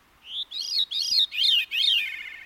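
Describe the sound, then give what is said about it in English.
Veery song, a songbird that sings two separate melodies at once, one rising while the other descends: a short high note followed by four ringing, arched, fluting phrases with a layered, two-voiced tone, loud and alone. “sing two separate melodies at the same time. At one point in the song, one melody rises while the other descends. It's as if the bird has two voices.”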